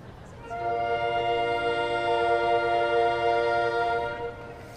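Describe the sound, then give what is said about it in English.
Soprano saxophones, including a curved saxello and a C soprano, play together in one long, steady, bright chord that swells in and fades out over a few seconds. “And we also have one saxello over here. And we have one C soprano over here. And when the sopranos together play, they sound like this.”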